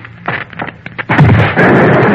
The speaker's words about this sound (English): The machine's ruined, though. I might have known. She had it rigged to short and explode if it was tampered with.